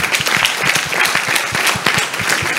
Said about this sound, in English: Let's clap for a very good